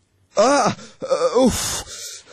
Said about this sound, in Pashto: خوب کې دې ژړل؟ توبه توبه، ډیر بد خوب مې ولیده.